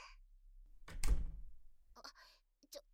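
A door is shut with a single solid, muffled thunk, with brief faint sounds just before and after it.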